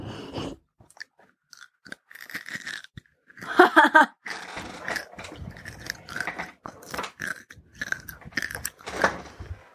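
Someone bites into an M&M candy, giving a sharp crackling crunch, then many softer, uneven chewing crunches in irregular bursts.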